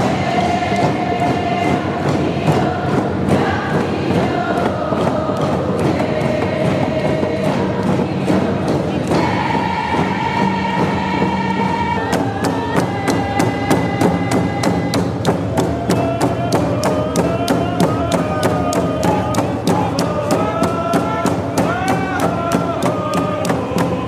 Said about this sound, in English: You were just listening to music recorded at the Round Dance Revolution at Waterfront Station in